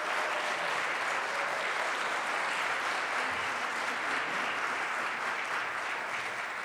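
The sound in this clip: A Fairbanks audience gives warm applause to welcome a guest speaker, a dense and steady wash of clapping that keeps an even level from start to finish.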